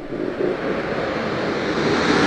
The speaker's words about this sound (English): Atlantis landing here, down and locked. Main gear touchdown.